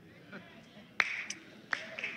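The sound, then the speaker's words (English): Weak golf clap from a sermon audience after a joke about paying taxes: a few scattered, faint, sharp hand claps, sparse and irregular, over a low steady hiss. “And a rather weak golf clap when I talk about paying taxes.”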